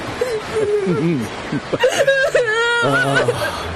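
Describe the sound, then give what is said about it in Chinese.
A child crying in a drama scene, with loud, wavering vocal sobs and whimpers that rise and fall in pitch across several bursts, broken by short gasping pauses. “好孩子，不哭啊，不哭。”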